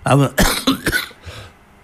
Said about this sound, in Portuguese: Isto é tosse.